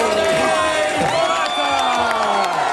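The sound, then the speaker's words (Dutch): Crowd cheering and shouting at the start of a cycling race, a continuous loud roar of many voices with whoops rising above it throughout. “niet alleen hij, iedere renner krijgt zijn eigen applaus.”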